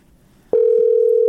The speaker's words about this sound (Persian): بله زنگ میزنه منتها تیر نمیکنه.